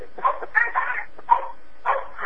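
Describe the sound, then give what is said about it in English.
A dog barks and yips in the background of a phone conference call: several short, bright bursts in an uneven rhythm over a low line hiss. “a little bit of background noise. It sounds like that's a dog to me.”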